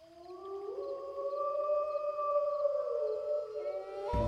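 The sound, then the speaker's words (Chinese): Wild beasts roaring near a riverbank at night, heard as a sustained, tonal, howling wail that climbs early, holds steady, then sags lower, cut off by a sharp low burst at the very end. “只是眨眼的功夫，那些好像海远的野兽咆哮声就近了，此起彼伏于周遭”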